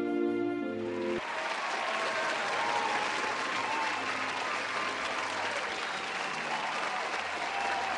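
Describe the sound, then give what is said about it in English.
A crowd applauding at a celebration: a short burst of music opens, then a dense, steady roar of clapping runs evenly to the end. “And they all cheered.”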